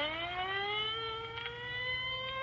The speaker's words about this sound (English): Well, there goes the ambulance.